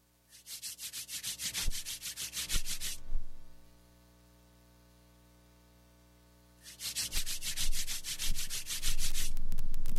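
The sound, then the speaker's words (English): Hands rubbed together quickly and firmly produce two long bursts of rapid, steady friction strokes, separated by a few seconds of quiet. “Rub your hands together in front of your nose quickly and firmly, and try producing the same sound as our calibration noise.”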